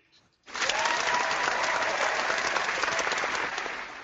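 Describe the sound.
Applause from an audience breaks out after a brief quiet moment and carries on as dense, steady clapping right through to the end.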